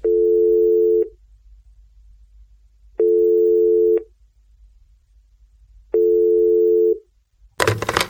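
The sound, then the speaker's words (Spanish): A telephone ringback tone while a call is placed: three steady, mid-pitched one-second beeps separated by two-second pauses over a low hum, ending in a short burst of noise. “Voy, venga, llamando.”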